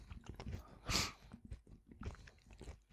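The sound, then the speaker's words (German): Two people eat crunchy spekulatius biscuits, giving quiet, irregular chewing and crunching with one louder crunch near the start. “Das ist so dieser Moment, wo zwei Leute im Podcast gleichzeitig einen Spekulatius gleich essen.”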